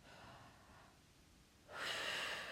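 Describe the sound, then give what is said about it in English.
A big, deep breath drawn in and released on cue, steady soft airflow dipping quiet before a louder, sustained rush of breath. “Take a nice, big, deep breath in. Breathe out. In.”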